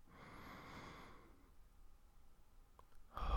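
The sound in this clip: A slow exhale during a guided relaxation breathing exercise: a soft, airy breath that fades out after about a second. A quiet pause follows, with a faint click, before a louder breath begins at the very end.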